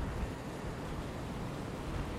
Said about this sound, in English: Oh, that's a nicey wind.